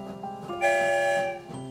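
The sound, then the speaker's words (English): A train whistle sounds once, a bright, steady chord of several tones held for under a second above a soft tonal background, then fading away. “One whistle, we're on our way.”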